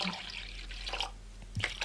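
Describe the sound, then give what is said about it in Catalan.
Water is poured into a cooking pot for soup to be set on the fire: a brief, faint, splashing trickle with a few soft drips, and no voices. “Aviam, portem una olla. Mentrestant, rentaré la destral... L'olla d'aigua...”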